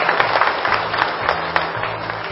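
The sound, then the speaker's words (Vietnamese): Steady, dense applause from the audience at a Buddhist summer retreat closing ceremony in Binh Chanh district, Ho Chi Minh City, a continuous patter of many hands. “Đề nghị đạo tràng hãy cho một tràng vỗ tay.”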